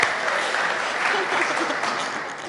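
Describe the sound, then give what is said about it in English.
Steady, loud audience applause sustained throughout, a dense wash of clapping welcoming a family member in the crowd. “Yeah, big hand. Welcome.”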